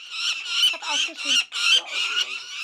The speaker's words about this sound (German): Ihr Ruf bedeutet, Mama, Papa, hier bin ich. Die beiden Luggerfalken sind 9 Wochen alt und trainieren gerade das Fliegen im Tierpark Edersee.